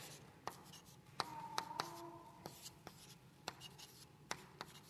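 Writing on a board during a Bible lesson, heard as a quiet series of short scratching strokes and sharp taps, irregularly spaced and fairly faint.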